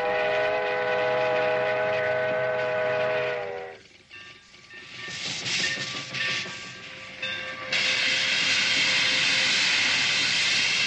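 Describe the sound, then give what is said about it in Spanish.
A steam train's whistle sounds as the train approaches a small desert town on a sunny morning in a Western. A long, steady whistle tone is followed by a quieter stretch of rumbling and hiss, then the whistle returns loudly. “Tiempo después, una soleada mañana, un tren se aproxima al poblado.”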